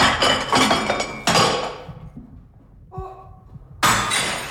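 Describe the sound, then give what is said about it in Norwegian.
A ceramic cup smashed against a wall: a sharp crash with bright, crackling shatter that fades, then another sudden bright burst. “men skal jeg slå en kopp for at du sint på deg selv? Ja, det kan du gjøre. Det veldig fint. Ja, en kopp i veggen der. Nå skal vi se.”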